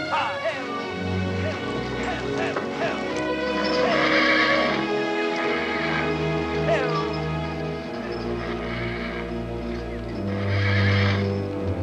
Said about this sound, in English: Sam's horse is spooked by something in a nearby snowdrift.